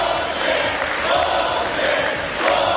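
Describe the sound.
Trump's supporters chant loudly after his speech attacking the courtroom case against him. The crowd roar is dense and sustained, holding a steady rhythmic swell from start to finish.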